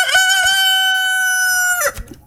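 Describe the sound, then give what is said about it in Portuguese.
A rooster crows once, a loud, sustained, harmonic call lasting nearly two seconds at a steady pitch. It cuts off abruptly and leaves faint low noise behind. “Cadê o galo? O galo não cantou mais, rapaz. Rapaz, o galo tá aqui. O galo pra cantar pra nós aí, rapaz.”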